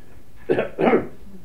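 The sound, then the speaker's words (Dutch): A throat being cleared in two short, rough bursts, the second slightly longer than the first, heard alone with no talk around them. “Neem niet kwalijk, schud me even de keel.”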